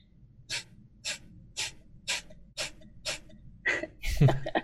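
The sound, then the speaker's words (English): Bhastrika breathing with forceful exhales through the nose: sharp, breathy puffs in a steady, evenly spaced rhythm, about six in a row, each returning quietly before the next, with a rougher burst of breath noise at the end. “So Bastrika is just forcefully out through the nose and just letting it automatically return without exerting any extra effort. So it sounds and looks like this.”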